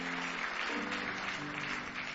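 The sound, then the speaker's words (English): A church audience claps together in praise, a dense, continuous wash of hand claps with no pauses. It stays steady and fairly loud throughout. “Give Jesus one more big hand clap of praise.”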